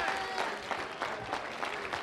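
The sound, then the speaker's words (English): An audience claps their hands during a church worship service, making a dense, steady wash of many overlapping claps at an even level throughout. “Lord, let's clap our hands unto him and bless his name.”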